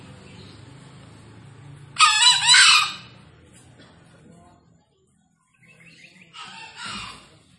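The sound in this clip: Green junglefowl crowing, a wild jungle rooster released to roam free: two short, hoarse, high-pitched calls, the first loud and the second fainter, over a low steady background rumble.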